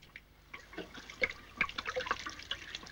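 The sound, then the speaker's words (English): Liquid splashes as whiskey is tipped from an uncorked bottle down a kitchen sink, heard as irregular, fairly faint splashes and drips. “He pulls out the cork and tips the whiskey down the sink as Don and Helen slowly walk over to him.”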